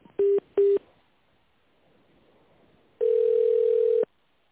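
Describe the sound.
Telephone tones while a call is connected to a specialist: two short beeps, a pause, then one longer steady tone of about a second, clear and with no voices.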